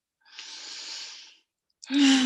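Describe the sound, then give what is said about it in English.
A slow, deep inhale during a guided relaxation class: soft, airy breath noise lasting about a second, then a short pause before a voice begins. “Take a deep breath.”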